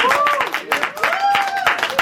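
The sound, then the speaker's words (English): An audience clapping to welcome a woman at a church gathering, brisk, fairly loud applause with voices talking over it throughout. “Let's give her a hand.”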